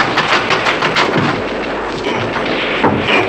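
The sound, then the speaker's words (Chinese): Gunfire in a firefight with a security regiment: a dense, loud barrage of many overlapping cracks and booms that runs without pause through the whole clip, with no voices. “哎，快快走，保安团的人和你们开火了。”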